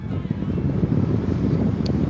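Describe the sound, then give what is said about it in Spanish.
Wind blows in a steady, low, rushing roar that fills the whole clip without easing, with no voices over it. “Lo podemos sentir. Es un látigo en nuestra piel. El viento se acelera.”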